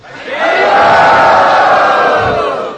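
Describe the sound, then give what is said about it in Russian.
A temple crowd shouts loudly in unison to greet guests with raised hands, one sustained, forceful collective cry that swells in quickly, holds, and tapers off. “В храме Радханата Махараджа, когда они приветствуют гостей, они поднимают руки вверх и очень громко кричат «Хари Бол».”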